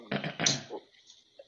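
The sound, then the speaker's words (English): A person clearing their throat in two rough, low guttural bursts in quick succession, then a few faint smaller sounds. “it was the clearing of the throat”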